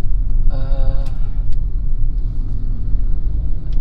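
A car being driven: a loud, steady low rumble of engine and road noise runs throughout with little change.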